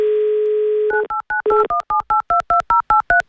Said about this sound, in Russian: Набрали номер Алексея из Санкт-Петербурга, 2083.